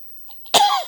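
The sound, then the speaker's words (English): A single loud, rasping cough from a person with a coughing problem, preceded by two faint breathy sounds and trailing off into a throaty rasp. “coughing problem because I have taken my medicine just now.”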